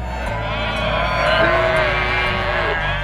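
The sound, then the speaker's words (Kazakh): Sheep bleating from a flock grazing freely on a mountain pasture. Several wavering bleats overlap above a steady low rumble. “Маны бұл қой қалыланың яйлақтыки әркін яйлышы ватқан авазы.”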